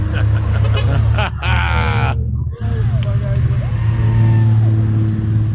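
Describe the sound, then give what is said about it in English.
Porsche engine revving on a street at Put-in-Bay: a loud, rising mechanical rev with a raspy edge, a sharp cut-off, then a steady rumble of traffic as people talk nearby. “Got one from the other side of the street, too. Pretty Porsche.”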